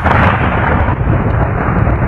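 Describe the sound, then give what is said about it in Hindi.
Heavy rain with large drops pours down in a storm, a loud, dense, continuous wash of noise with a deep rumbling undertone throughout. “तभी आसमान से बारिश की मोटी मोटी बूंदें गिरने लगी”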